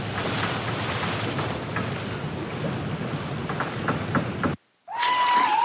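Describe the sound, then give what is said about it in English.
Liquid splashing, presented as raw hamburger juice sloshing on a cutting board: a steady, rushing, watery churn for about four and a half seconds, then a brief gap and a short tonal tail. “This is the sound of E. coli splashing around in raw hamburger juice on your cutting board.”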